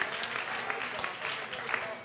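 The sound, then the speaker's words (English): Congregation applauding with a hand clap of praise during a church service, a dense, steady wash of many hands clapping that holds at an even loudness throughout. “As he comes, why don't you give the Lord a hand clap of praise?”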